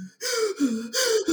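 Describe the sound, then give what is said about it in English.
A voice imitates gasping for breath while wearing a surgical mask, with about four loud, strained, rapid gasps in close succession and no other sound. “It is sometimes hard to breathe in those masks. But, I mean, I'm going to put up with it. But it's like, you're like this, you're like.”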